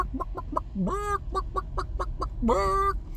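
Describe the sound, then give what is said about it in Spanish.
A large chicken clucking: a run of short, sharp clucks broken by two longer, drawn-out squawks that climb in pitch, fairly loud over a low steady hum. “Hay un pollo.”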